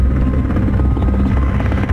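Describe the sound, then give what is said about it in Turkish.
Firefighting helicopters work over a wildfire at first light, making a loud, steady drone with a low, throbbing rotor beat that continues without a break. No voices are heard. “İşte helikopterler devreye girdi sabahın ilk ışıklarında.”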